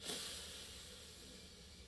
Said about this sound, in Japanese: 呼吸は鼻からでも口からでも、えー、両方でも OK です。では、ゆっくり吸っていきます。